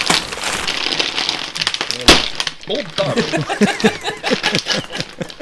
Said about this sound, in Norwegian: Gikk hele, gikk hele på gulvet nå. Åpnet seg feil ende.